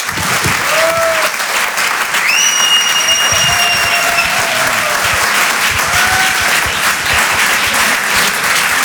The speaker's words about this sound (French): Faites du bruit s'il vous plaît pour Jean-Benoît Diallo.